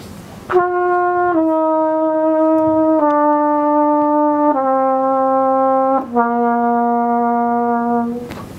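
A trumpet played well, holding five clear sustained notes that step down in pitch one after another, loud, steady and rich in overtones, with no other sounds.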